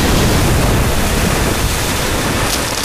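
Icy Antarctic storm attack effect from an animated battle: a loud, dense rush of roaring wind-like noise that stays steady and unbroken from start to finish, with no voices over it.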